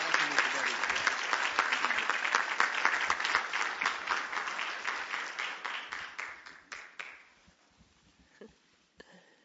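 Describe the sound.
An audience applauds to welcome guests who do charitable work in Ecuador. Dense, brisk clapping starts loud, then gradually thins and fades over about seven seconds, leaving a few scattered claps at the end.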